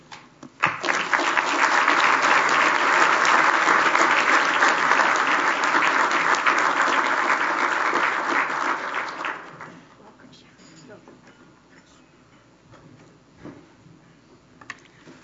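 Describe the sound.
Audience applause welcomes a speaker to the Canadian Club of Toronto podium: loud, dense, steady clapping starts abruptly, holds for about nine seconds, then dies away to a low murmur of background noise.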